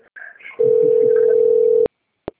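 A telephone rings on an outgoing call as one long, steady electronic tone at a single pitch, followed by two sharp clicks with silence between them.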